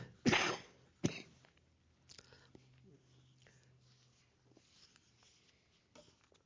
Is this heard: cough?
yes